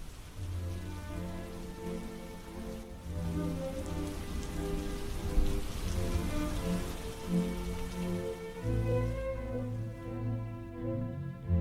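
Steady rain falling as a storm over a village weakens, a dense, even hiss of drops on surfaces that holds at a fairly constant level throughout, with no voices.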